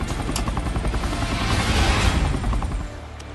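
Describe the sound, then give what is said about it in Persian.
A helicopter comes in to land, its rotor and engine making a dense rumbling roar that swells through the middle and then drops off sharply near the end. “اون هلیکوپترم بالاخره فرود میاد.”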